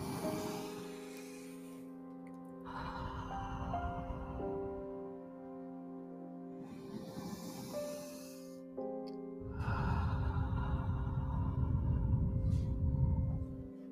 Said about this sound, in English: Let's breathe with this belief two deep inhales.